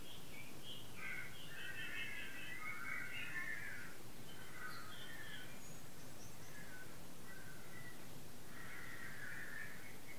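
Crows caw faintly outside, a series of harsh, scratchy calls spaced through the stretch over a constant low hiss.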